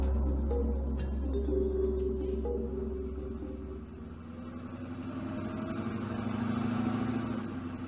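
A minibus engine runs with a low, steady rumble and humming tones, continuous throughout with a slight dip and change in tone midway, and no voices.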